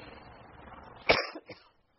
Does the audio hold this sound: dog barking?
no